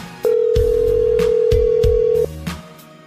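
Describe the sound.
An outgoing telephone call rings through with one steady, single-pitched tone lasting about two seconds, over low, rhythmic thumping beats that continue after the tone stops.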